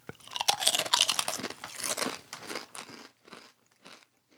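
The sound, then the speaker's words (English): Loud, dense crunching of Zapp's-style honey barbecue potato chips being bitten and chewed, with many rapid crisp cracks that thin out into a few softer crunches near the end. “They taste just like Zaps to me, except for the honey barbecue part. The chip style is Zaps, and the taste reminds me of the old Mesquite barbecue Lay's potato chips.”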